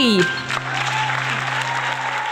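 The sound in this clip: Audience applause for the MC of an improvised musical show: a brief tonal sting at the very start, then dense, even clapping that holds steady for about two seconds.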